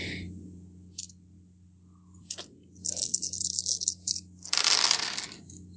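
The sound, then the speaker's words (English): Seven dice are rolled during a tabletop role-playing game: a few faint clicks, then a louder clattering rattle near the end, over a low steady hum. “Okay, so 7 dice.”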